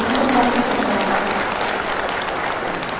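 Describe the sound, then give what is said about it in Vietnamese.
Audience applause at a Vietnamese Buddhist gathering welcoming a visiting abbot: dense, steady clapping that holds evenly throughout, with a brief voice at the very start. “Xin đại chúng cho một tràng pháo tay để”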